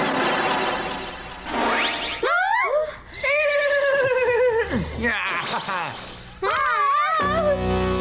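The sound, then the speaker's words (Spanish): A loud, drawn-out neigh from a wooden horse in an animated cartoon, made of wavering, sliding whinnies that carry on for several seconds with hardly a break. “Caballo de madera, Mawashitaro.”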